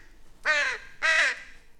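A crow caws twice. The two harsh, nasal calls are loud and alone, of similar length and pitch, with a short pause between them.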